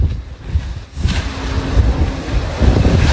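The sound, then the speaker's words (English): Water churns and wind rushes as a Tesla Cybertruck drives through a lake, a steady, rough, loud wash of noise with no voices. “So he's literally just driving his Tesla Cybertruck in a lake right now.”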